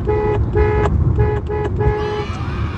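A car horn honking a signal pattern while driving on a street: a rhythmic run of short toots ending in a longer blast, over a steady low rumble of engine and road noise.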